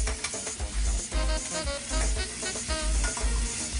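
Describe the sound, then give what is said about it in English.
Food sizzles in a skillet just after a quick flip: a steady, loud frying crackle with recurring low thumps throughout and no voices. “when you look professional, shake that skillet. So I'm just gonna give it a quick flip. So we're gonna finish cooking while we're building our sauce.”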